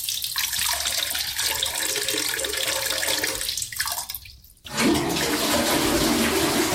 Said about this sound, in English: flush the toilet.